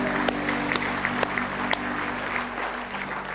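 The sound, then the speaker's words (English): An audience applauding in church, a steady wash of clapping that holds at an even level throughout, with a few sharper individual claps standing out. “Give the Lord a hand clap of praise tonight.”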